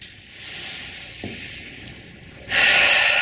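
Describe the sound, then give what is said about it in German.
Breathing out: a quiet, airy breath leads into a sudden, loud, breathy rush of exhaled air that fills the last moments. “mal ausatmen.”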